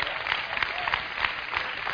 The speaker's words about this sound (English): Give him a hand. That's powerful, isn't it? You should clap right there.